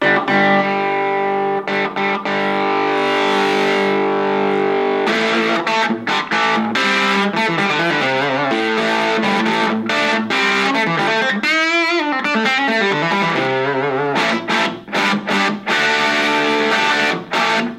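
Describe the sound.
Overdriven electric guitar played through an overdrive pedal with its gain knob turned up, adding saturation to a fairly clean tone. Loud sustained chords ring out alone with chunky crunch, broken by short stabs and several brief pauses.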